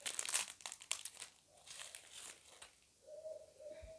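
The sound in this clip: The wrapper of a Korean wafer snack is torn open by hand with sharp crinkling bursts, followed by quieter intermittent rustling.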